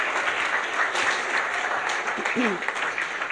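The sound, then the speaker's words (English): Audience applause welcoming people onto a stage: steady, dense clapping throughout, with a brief voice briefly audible within it near the end. “Now you can put your hands together and welcome these people.”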